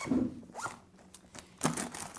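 The zipper of a pencil case is pulled open in a few short, rasping strokes, loud and crisp, with no talk over it.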